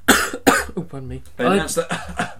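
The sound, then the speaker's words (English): A person coughs: two short, sharp bursts at the start, followed by talking. “a cough. They announced a cough. Another one. A cough.”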